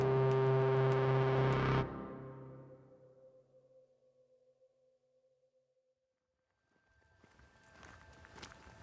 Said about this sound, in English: I could walk down there right now and just see what I can see and see what the scenario is and then walk back. Why don't we do that?